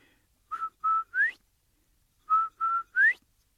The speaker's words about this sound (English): And Turtle says, that is a beautiful sound. Even when you don't know where the sound's coming from or who's making that sound, it sounds beautiful. Okay, Quail. Now give my whistle back.